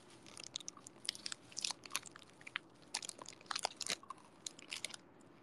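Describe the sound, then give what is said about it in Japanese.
Quiet, close chewing of a gummy candy, with many irregular squishy bites and wet smacks and no talk. “ドンキホーテでさ、美味しいかなと思って買ったなんかガム、グミか、グミなんだけどね、そんなだった。 ASMR で見たから食べたの。”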